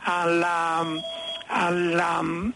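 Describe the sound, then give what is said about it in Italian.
Phone ringtone going off, two bursts of a bright electronic melody whose harmonic tones step up and down in pitch, each lasting about a second, loud and alone. “scusi, qui c'ho un telefono inopportuno al momento.”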